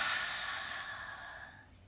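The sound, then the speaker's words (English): A deep, slow breath, heard as one long airy exhale that starts loud and fades steadily over about two seconds, with no talk around it. “Let's take a nice deep breath in. Taking on in all of this positivity that we've talked about this morning. And breathe out.”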